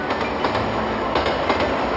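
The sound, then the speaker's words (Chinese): A train pulls out of Tongliao station in Inner Mongolia with a steady, loud rolling rumble. A faint rhythmic clickety-clack of wheels on rails runs underneath, without pause. “列车驶离通辽站”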